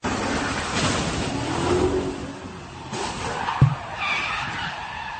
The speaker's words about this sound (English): Well, that's the sound of some wild video, if you saw it over the weekend on social media, where one car was T-boning another in the middle of the street.